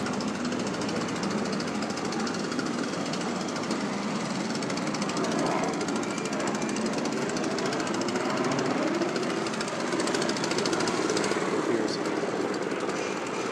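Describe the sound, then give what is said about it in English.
Construction noise on a street, a loud, continuous mechanical din with rapid rattling pulses like a jackhammer that carries on unbroken throughout. “So I'm coming across a construction kind of spot here”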